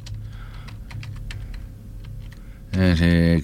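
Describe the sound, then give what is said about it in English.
Typing on a computer keyboard: many quick, light key clicks in an irregular rhythm over a low steady hum, with no voices. “I'm going to try to type in something.”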